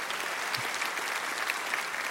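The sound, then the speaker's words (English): Audience applause at a church service welcoming new sixth graders: dense, even clapping from many hands, sustained at a steady level throughout. “would you help me welcome by applause all of the new sixth graders that are joining us today?”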